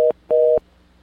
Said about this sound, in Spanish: Perdón, se cortó la llamada de la persona que tenía, si gusta volver a llamar.